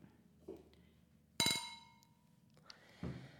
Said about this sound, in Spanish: hemos abierto un cava, vamos a hacer un brindis